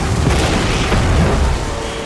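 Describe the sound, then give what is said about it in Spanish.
A truck on a highway explodes, giving a deep, sustained rumbling roar with dense low boom that stays loud and then eases slightly toward the end. “El camión que circulaba por la carretera N340 estalla.”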